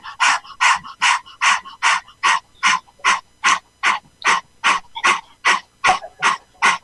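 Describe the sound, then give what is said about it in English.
Forceful exhalations pushed out through the mouth in a breathing demonstration: a long run of short, sharp, breathy bursts at a fast, steady rhythm, loud and alone. “You have to breathe out from the mouth, release all the tension, bacteria, virus. Do like this.”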